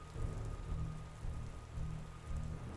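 Steady rain falling and pattering on a surface under a darkening sky, a continuous dense hiss with a low rumbling bed and gentle swells in loudness, with no voices.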